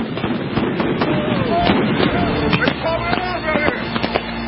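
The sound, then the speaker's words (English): Rubber bullets are fired on a city street, a rapid, irregular string of many sharp pops and bangs running throughout, mixed with voices. “Quit shooting at me. Quit shooting at me.”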